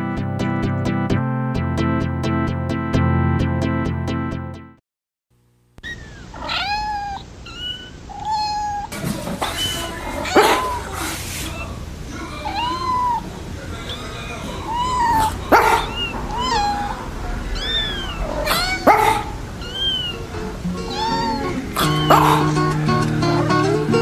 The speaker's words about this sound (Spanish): Por los que bufan y ladran.